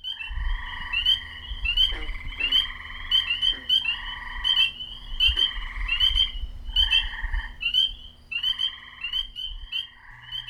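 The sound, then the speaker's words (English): Frogs croak in a large, flat, seasonally wet area in spring or summer along a road in Tazewell County. Many loud, raspy calls repeat in quick rhythmic bursts and overlap, with a low rumble underneath. “Along U.S. Business Route 19 in Tazewell County lies a large, flat, seasonally wet area that attracts lots of loud amphibians in spring and summer.”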